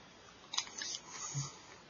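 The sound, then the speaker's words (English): Biting into a Taco Bell taco shell: a few faint, brittle crunches in quick succession, heard on their own. “I'm going to try a little bit of the shell without actually tasting the meat first.”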